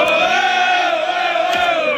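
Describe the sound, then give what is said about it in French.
A few dozen supporters at Marignane airport chant loudly in unison to greet footballer Mason Greenwood on his arrival, a sustained, strongly pitched crowd cry that holds steady throughout. “Mercredi, en début de soirée, à l'aéroport de Marignane, Mason Greenwood est accueilli par quelques dizaines de supporters.”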